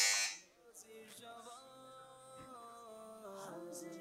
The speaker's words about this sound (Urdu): سارے ہی اسلامی بھائیوں نے بڑی کلوز بزر بجائی ہے.